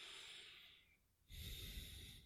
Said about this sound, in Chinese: 那录音的人，他可能过敏或者是其他原因，会有鼻息声，